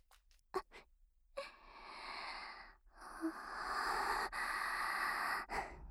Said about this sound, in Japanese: 声出さなくてもそんなにふうふう鼻息荒げたらダメでしょう。